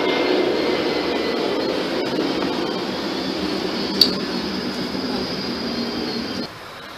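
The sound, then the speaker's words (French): An airplane passes overhead with a continuous broad roar and a thin steady whine above it, holding level for most of the stretch and then dropping off sharply near the end. A single brief click cuts through midway. “Oh, l'avion la passe.”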